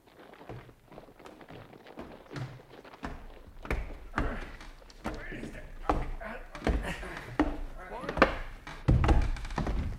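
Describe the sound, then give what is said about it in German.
Heavy thumps and knocks of a wardrobe being bumped against a wall in a radio drama, several irregular impacts of varying loudness mixed in with speaking voices. “Du sei vorsichtig mit dem Schrank. Das ist zwar nicht meiner, aber du darfst ihn doch nicht so an die Mauer stoßen.”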